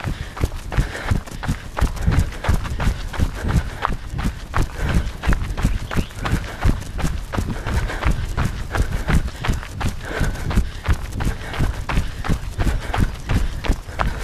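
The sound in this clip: People run during a timed interval workout, making fast footsteps with a quick, steady thudding rhythm of many footfalls that carries on throughout without talk.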